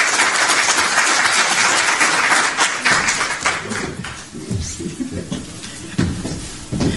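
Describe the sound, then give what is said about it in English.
Audience applause welcomes a speaker at a sustainability and public health lecture event. Dense, loud clapping fills the first three seconds, then thins into scattered claps that fade out. “Let us put our hands together and welcome Dr. Mojgan Semihi.”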